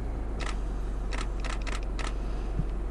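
Camera shutter clicks from a photo taken from a car: a quick series of crisp mechanical snaps, bunched in the middle, over a steady low rumble with no talk.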